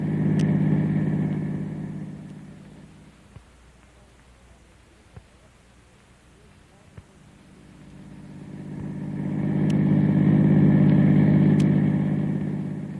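Engine drone of a car driving: a loud, steady low hum at the start dies down to a quiet stretch with a few faint clicks, then swells back up loud and steady before easing off at the end.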